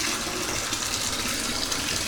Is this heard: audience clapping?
no

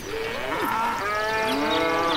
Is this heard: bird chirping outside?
no

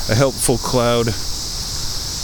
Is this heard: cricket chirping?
yes

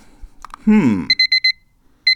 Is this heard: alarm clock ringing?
yes

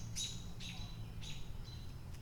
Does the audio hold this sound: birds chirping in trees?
yes

